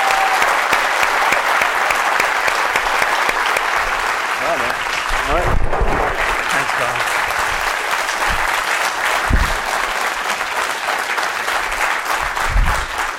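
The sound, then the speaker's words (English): Sustained applause from an audience welcoming a guest speaker at a UC Santa Barbara alumni event, steady and dense from start to finish with no break. “Let's give Lars a warm Gaucho welcome.”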